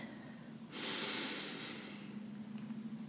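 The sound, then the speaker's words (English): A single deep breath in during a calming stillness exercise: a soft, airy rush that swells and lasts about a second, heard alone over a faint, steady low hum. “I like to take three deep breaths. I'm going to breathe in”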